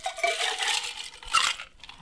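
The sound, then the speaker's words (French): Ice cubes dropped into a mixing glass for a stirred cocktail give bright, glassy clinks and rattles, a longer tumbling burst followed by a shorter second clatter, with no talk over it. “Ensuite, donc, je mets de la glace.”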